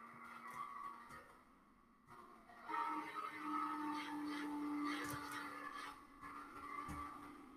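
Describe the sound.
Racing car engine and skidding tires in a video game race: a sustained roaring engine drone with tire squeal, swelling louder partway through and staying loud to the end.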